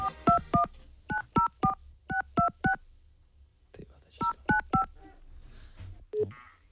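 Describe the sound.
Touch-tone keypad beeps sound as a telephone number to Slovakia is dialed. Many short dual-pitched tones come in quick clusters with brief pauses between them.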